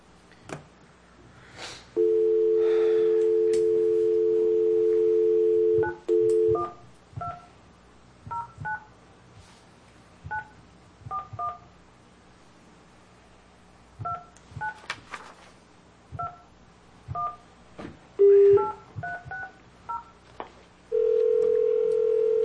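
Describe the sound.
Keypad dialing tones on a company's automated phone line: a long steady tone, then many short dual-tone beeps pressed at uneven intervals, ending with another sustained tone.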